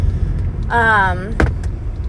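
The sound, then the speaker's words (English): Low, steady engine and road rumble from a car driving in traffic, continuous throughout, with a person speaking briefly over it. “this car just freaking cut me off in the wrong lane.”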